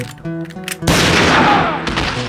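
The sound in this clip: A single rifle shot fired from a second-story window: a sudden loud, sharp crack followed by a long, ringing decay that tails off gradually.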